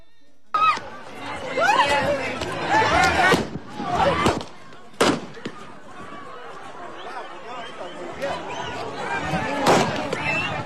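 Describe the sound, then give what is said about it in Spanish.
Gunshots fired during a violent incident in Cerro de San Pedro ring out as a few sharp, sudden cracks amid agitated shouting voices and crowd noise. “ahí ustedes escucharon las detonaciones de arma de fuego y en ese instante es donde incluso se alcanza a observar cómo un individuo usa su arma, la detona”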